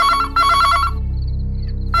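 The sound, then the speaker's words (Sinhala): A landline telephone rings with an incoming call, a bright electronic trill in two quick bursts. A pause follows, then the ringing starts again at the end. “ඒ වෙලාවෙ තමයි land phone එකට call එකක් ආවේ.”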